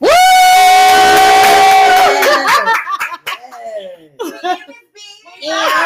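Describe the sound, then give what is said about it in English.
A studio audience cheers loudly, opening with a long sustained whoop, then breaking into laughter, shouts and scattered chatter before the noise swells again at the end. “I would be super rude to not introduce my studio audience.”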